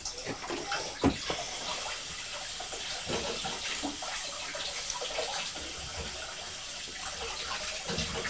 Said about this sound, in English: Hello, strawberry, we found you. So wash these. I wash you.